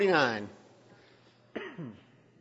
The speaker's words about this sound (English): Don't panic over the cough. It was just a tickle in my throat.